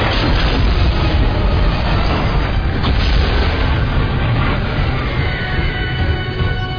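Torpedoes being fired: a continuous, loud, deep rumbling roar with a hissing rush over it, sustained evenly throughout without distinct separate launches.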